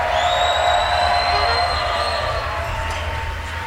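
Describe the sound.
A crowd cheers in the WWOZ Jazz Tent, a dense, steady roar of voices with sustained whistles riding on top. The noise holds level, then eases slightly toward the end.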